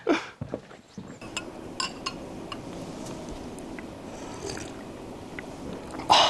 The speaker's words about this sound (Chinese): 吃饭的前面先刮了一下碗子，其实撒拉加宴首先就要刮一下碗子， 生活仪式感的一部分。